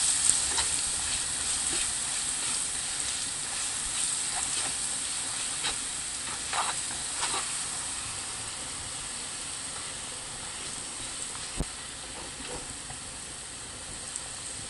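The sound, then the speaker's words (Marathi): Steady sizzling of ginger-garlic paste, two to two and a half spoonfuls, sautéing in a pan until lightly pink: a continuous bright frying hiss that holds an even level throughout, with no talk over it. “आलं लसूण paste 2 ते 2.5 चमचे, परतून घेऊ,”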